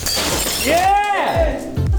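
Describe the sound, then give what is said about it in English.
A sharp shatter as an object tossed into the air is struck with a pole like a baseball in a rage room: a single crash with ringing breakage, surrounded by excited voices. “Shouldn't we do a throw it up and hit it with the pole like it's a baseball?”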